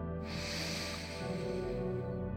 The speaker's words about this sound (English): Let's go ahead and take a deep breath now. And release. Deep breath in.